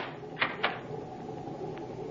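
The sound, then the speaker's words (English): A cabin door on a Navy cruiser is closed and locked, giving two quick, sharp clicks close together, then a fainter click, over a steady low background hum. “You may lock the door now.”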